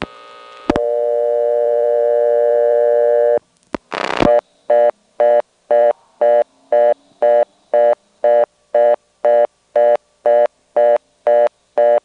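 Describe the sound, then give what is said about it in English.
Telephone reorder tone from a blocked level on the first selector: a steady tone, then a click and a brief burst of noise, followed by a fast, even on-off pulsed tone that repeats many times. “And here's a blocked level on the first selector. The way it goes into the reorder is kind of unusual. It sounds almost like it's cutting into a trunk.”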